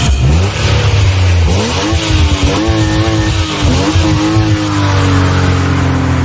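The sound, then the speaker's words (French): A sports car accelerating hard: a loud, continuous engine roar whose pitch climbs in steps as the revs build, with no voices over it. “Ben oui, c'est une voiture qui accélère, une voiture de sport”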